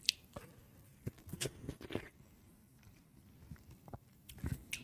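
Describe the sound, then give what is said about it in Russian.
Quiet, wet chewing and biting of watermelon eaten with its seeds, soft squishy bites and small crunches coming in a few irregular clusters, faint throughout. “Арбуз без косточек? Почему? С косточками? Просто я старый, мне похрен, я ем с косточками.”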